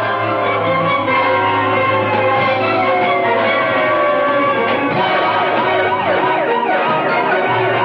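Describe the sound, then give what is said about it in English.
An ambulance siren wails loudly and continuously, its pitch sweeping up and down in repeated cycles that speed into faster warbles toward the end. “In the ambulance, the senator is bandaged as Harry looks on.”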